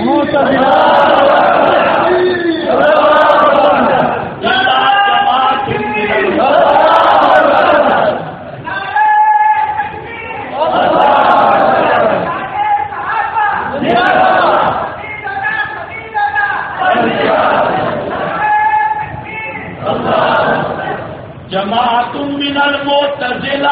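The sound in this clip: A crowd at a religious debate chants slogans in unison, loud shouted phrases that repeat with brief gaps between them.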